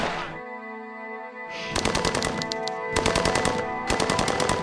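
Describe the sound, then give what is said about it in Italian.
Rapid machine-gun fire from a crime film trailer set in Corleone rattles out in three dense volleys of many shots, laid over a sustained music bed after a quieter opening. “Dottore, stanno sparando.”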